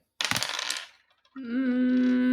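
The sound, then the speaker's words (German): Dice rattle and clatter in a short burst of under a second during a tabletop role-playing game, followed after a brief pause by a sustained, steady, hum-like tone. “Ich würfel nochmal auf meine Emotion.”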